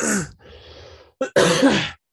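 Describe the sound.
Throat clearing from someone with something caught in the throat: a rough voiced rasp, a breathy stretch, a short sharp burst, then a longer harsh clearing, loud and without talk.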